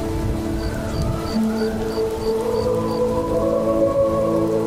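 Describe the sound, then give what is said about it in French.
Stormy-night rain ambience from an immersive wizarding-school soundscape: a steady, dense wash of rain with low tonal layers underneath and a faint, regular high beeping near the start, continuous and fairly loud throughout. “Là, par exemple, c'est Poudlard, hein, l'école des sorciers, par une nuit d'orage.”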